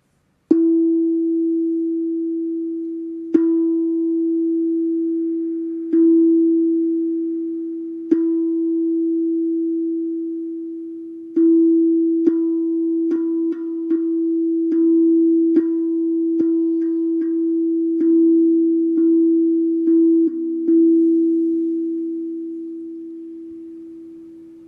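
A pure musical tone E played for meditation rings out, struck again and again, slowly at first and then more often, each strike sounding bright and fading gently into a sustained hum.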